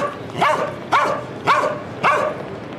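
A dog barks four times at a steady, even pace. Each bark is loud, mid-pitched and sharp, with no voices in between.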